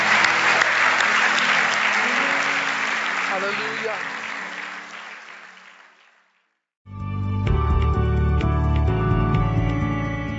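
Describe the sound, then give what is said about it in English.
An audience clapping hands during a church service, a dense, loud patter that slowly fades out over about six seconds, then a short silence before music begins. “let's clap our hands to the Lord for what he's done in our lives.”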